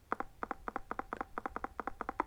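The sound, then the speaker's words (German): Low tapping guidance tone from an audio street-navigation system, marking that the walker is on the street: a faint, steady series of quick double taps, about ten pairs in an even rhythm. “Dieses tiefe Klopfen bedeutet, dass ich mich gerade auf der Straße befinde.”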